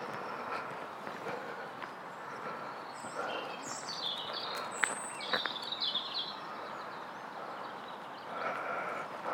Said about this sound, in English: Well, there we are. There's some birds singing. It's getting better.